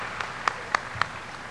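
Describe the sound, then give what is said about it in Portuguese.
Applause from an audience at an evening ceremony honoring two people: a short burst of steady clapping noise with a few sharper, louder claps standing out at regular intervals. “Eu peço uma salva de palmas aos dois, que são merecedores nesta noite.”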